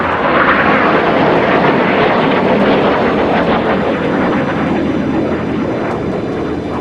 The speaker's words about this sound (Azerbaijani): Çevrilişə cəhd edənlərin nəzarətindəki F-16 qırıcıları xalqı qorxutmaq məqsədi ilə Ankara səmalarında alçaqdan uçuş edəcəklər.